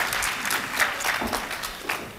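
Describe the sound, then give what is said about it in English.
Audience applause greets panelists coming up on stage, a dense, steady wash of clapping that holds at an even level from start to finish. “Yeah, you can clap.”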